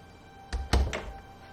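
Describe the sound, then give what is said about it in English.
A cupboard door being shut: a quick cluster of three wooden thunks, the middle one loudest, against an otherwise quiet background. “Kathy grabs the sweater and shuts the cabinet with a frown as Jenna watches.”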